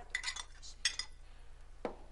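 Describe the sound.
Dishes and cutlery clink softly as food is served onto a plate, a few light, bright chinks spaced unevenly within a quiet stretch.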